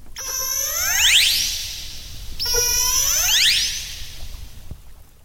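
Two orca calls, produced by lips inside the blowhole, ring out one after the other, each a loud squealing whistle whose bright harmonics sweep sharply upward in pitch before trailing off, with low water noise beneath.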